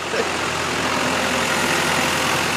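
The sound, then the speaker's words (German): Engine of a red van driving into a farmyard, a steady, even rumbling drone that holds constant throughout without clear changes or voices. “Ein roter Transporter fährt auf den Hof.”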